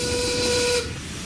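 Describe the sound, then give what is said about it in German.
A steam train's whistle sounds as the train departs: a single shrill, steady blast lasting under a second, then a lingering hiss of steam. “Zug fährt ab!”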